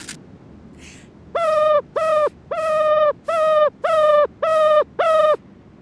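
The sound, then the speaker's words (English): Seven loud, evenly spaced calls of a ruffed grouse, a non-migratory bird. Each is a steady, nasal, harmonic note lasting under a second, repeated in a regular rhythm. “Okay, that was the call of a ruffed grouse.”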